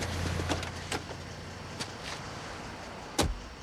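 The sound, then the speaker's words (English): A taxi drives past houses, its engine giving a faint, steady hum, with a few soft clicks and knocks scattered over the quiet drone. “The taxi drives past houses.”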